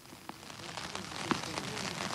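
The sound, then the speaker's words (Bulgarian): Heavy rain falling on a mountain peak in the Balkans, a faint, steady hiss of patter broken by a few sharper drop impacts. “Да, очакваше се да дойдат много хора наистина, но тук на Балкана страшно много вали днес.”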